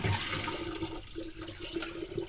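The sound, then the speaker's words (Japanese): Water is poured over rice in a colander nested inside a bowl, making a steady, rushing gush that stays full and loud throughout with small fluctuations. “こうザルとボウルを重ねてお水を注いで、まずは一回きれいなお水でお米を浸してからすぐに捨てちゃいます。”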